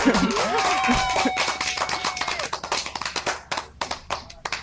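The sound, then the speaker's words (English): Hands clapping in praise of a women's team on a show: many sharp claps, thick at first under a voice, then thinning into separate, crisp claps toward the end. “I got to give you guys, you ladies, a clap.”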